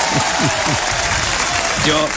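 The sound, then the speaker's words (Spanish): Audience applause for two performers on a cultural TV program, a dense, steady clatter of clapping that holds for the whole moment while a voice speaks over it. “Ese aplauso para ellos, por la única vez.”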